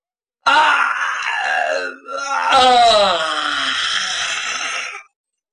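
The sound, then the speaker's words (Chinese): A storyteller's voice imitates a waking man yawning and stretching in bed: a long moaning yawn, a short break, then a louder groaning stretch whose pitch slides downward before ending abruptly. “这金公子醒了一打哈欠，在那床上一伸懒腰”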